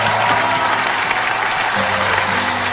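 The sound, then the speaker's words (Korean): Studio audience applause at a talk show: dense, continuous clapping from a crowd that holds at an even, fairly loud level from start to finish. “박수 한번 보내주시기 바랍니다”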